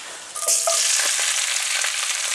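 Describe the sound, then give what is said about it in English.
Romaine lettuce hits a hot skillet and bursts into a loud, bright sizzle that starts sharply early on and then holds steady, hissing and crackling with no talk over it. “returning that to the skillet, and then now I'm going to dump in my romaine”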